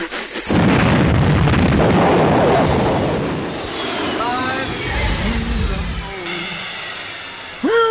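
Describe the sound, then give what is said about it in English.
A cartoon-style rocket liftoff sound effect: a sudden, loud, roaring blast that holds for several seconds and gradually thins out, followed by whistling, sliding tones near the end. “Get into the rocket! 3. 2. 1. Liftoff!”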